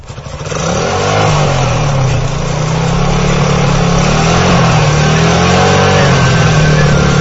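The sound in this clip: A motorcycle engine quickly swells to a loud, steady running drone with a slightly shifting pitch as the rider gets going on a cold night ride.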